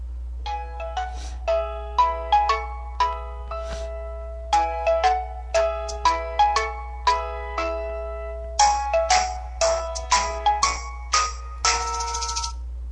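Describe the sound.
Phone ringing while a call is being connected: bright, melodic chiming notes in repeated short phrases, fairly loud, over a steady low hum, with no voices.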